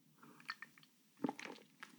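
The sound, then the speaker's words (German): A quick sip and swallow of a drink comes through as soft, wet mouth noises in a couple of faint clusters, with no voice over them. “Ich muss mal ganz kurz einen Schluck trinken. Ich hoffe, das stört nicht.”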